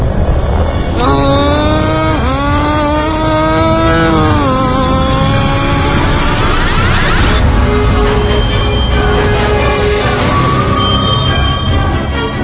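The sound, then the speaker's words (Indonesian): A vehicle with a wrecked tyre accelerates away hard, its loud engine note climbing in a few rising surges before giving way to a rough, noisy roar. “Tanpa pikir panjang, aku langsung menancap gas.”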